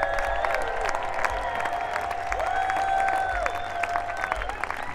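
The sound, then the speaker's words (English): Audience applause for musicians at a live performance, a full, sustained wash of clapping from a large crowd that stays at a steady level from start to finish. “And a huge hand for the musicians.”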